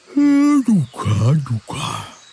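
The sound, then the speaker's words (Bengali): A drawn-out vocal yawn from a man waking and sitting up: a held, steady voiced note slides down into a falling groan, followed by a few shorter murmuring, sigh-like vocal sounds. “তারপর রোজকার মতো high তুলে বললেন,”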